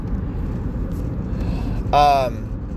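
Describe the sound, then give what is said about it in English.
Steady low rumble of traffic on a highway runs through the whole stretch, loud and continuous, with a brief tonal burst rising out of it near the end. “Sorry, they have traffic on the highway.”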